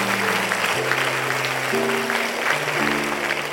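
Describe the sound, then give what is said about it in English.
Applause for graduates from kindergarten, high school and college rises during a service at a Baptist church, a continuous wash of clapping sustained over steady musical chords that shift in pitch several times. “Church family, let's put our hands together again for all of our graduates from kindergarten, high school, and from college.”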